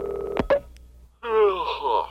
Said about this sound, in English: In the meantime, I'll allow his home phone to continue ringing.